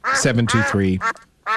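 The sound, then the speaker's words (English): Duck quacking sound effect: a rapid run of loud, nasal, raspy quacks in quick succession, then a brief pause and one more quack. “Or may the duck be with you. Oh, that darn duck. I know. Darn you, duck!”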